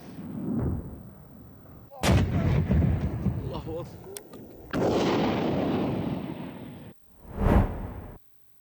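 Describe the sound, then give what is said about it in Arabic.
Government forces shell Houthi positions on Yemen's southern Marib fronts with artillery: a few loud, deep booming blasts, each trailed by a rushing, whooshing rumble that lingers before dying away. “نشر المركز الإعلامي للقوات المسلحة اليمنية مشاهد لما قال إنها قصف مدفعي نفذته القوات الحكومية على مواقع وتجمعات للحوثيين في جبهات مأرب الجنوبية”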